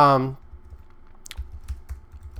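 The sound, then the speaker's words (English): Typing on a computer keyboard: a few soft, irregular key clicks with dull low thuds, following a brief voice at the start. “as I click away on my keyboard”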